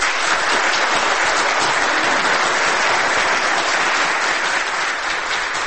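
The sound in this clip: Loud, continuous audience applause following an actor's monologue, a dense, even wash of many hands clapping that holds steady from start to end with no pauses.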